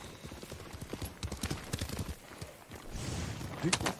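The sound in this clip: A horse walking, its hooves clip-clopping in a steady rhythm of many hard knocks over continuous background noise.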